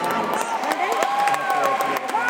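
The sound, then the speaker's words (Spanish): Applause and cheering from an audience for the last contestant of a competition's first round. Many hands clap in a continuous wash while voices and whoops rise over it. “Ahí está entonces el aplauso para nuestro último concursante en esta primera ronda, por favor.”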